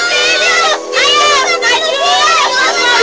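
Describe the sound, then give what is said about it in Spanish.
Children play and joke, their high-pitched voices chattering and calling out loudly in a continuous overlapping stream, with brief dips between bursts of excited shouting. “Niños jugando con sus bromas, que se callen, por favor.”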